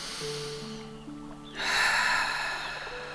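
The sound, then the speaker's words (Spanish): A long, deep breath rises as a broad airy rush after a quieter start, continuing steadily to the end over a sustained tonal drone. “Y respiro nuevamente.”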